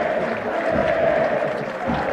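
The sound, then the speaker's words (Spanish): Stadium crowd applause for a football player being substituted late in a professional match: a dense, steady roar of clapping and crowd noise that holds evenly, fairly loud and unbroken, for the whole two seconds. “Ahí está. Aplausos,”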